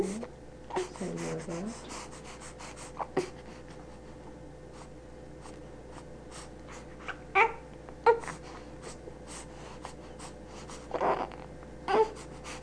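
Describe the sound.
A baby strains with his mouth closed after a bath, tongue between his lips, producing short pressed grunts and nasal snorts in several separate bursts spread over quiet stretches with a low steady hum.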